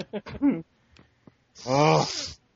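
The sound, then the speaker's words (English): Loud nasal inhalation by actor Jack Palance on the set of Batman, a raspy, snort-like breath lasting almost a second, preceded by a few short vocal bursts. “The nasal inhalation is off the charts.”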